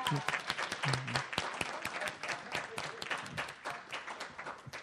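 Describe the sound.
A conference audience applauds as a panelist is welcomed, with dense overlapping handclaps that hold strong for a few seconds, then thin out and fade toward the end.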